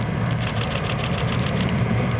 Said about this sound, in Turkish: İş makineleri durmadan yoldaki karı temizlemek için çalışıyor.